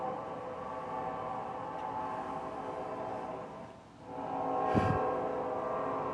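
A train passes, heard as a steady rumbling drone with a tonal hum that dips briefly, then swells louder again before settling.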